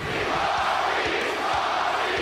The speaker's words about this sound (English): as the people chant my name, Rocky.